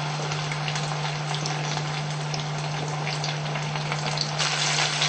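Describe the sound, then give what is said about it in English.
A banana deep-frying in hot oil until golden: a continuous, even sizzle of fine crackles and pops, with a steady low hum running underneath the whole time. “put it on top of that banana so that it cover a little bit more. And deep fry it until it's golden.”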